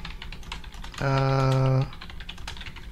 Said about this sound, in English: So I just typed my message and hit enter.